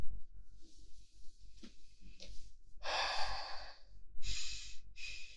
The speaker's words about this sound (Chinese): 我有点喘不上气，我深呼吸一下就好了。